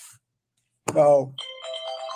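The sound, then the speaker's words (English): A mobile phone ringtone plays as a melody of steady electronic tones, starting just after a brief burst of voice and continuing to the end. “Oh, I got to turn my stupid phone off.”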